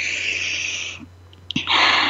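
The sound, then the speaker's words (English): A deep breath in: an airy, steady hiss, a short lull, a brief sharp catch, then a louder breathy rush. “Let's breathe that in.”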